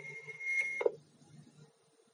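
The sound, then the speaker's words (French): A single short, high electronic beep from an answering machine signals the start of message recording. It sounds quiet and alone, and fades into faint low noise. “vous pouvez nous laisser un message après le signal sonore”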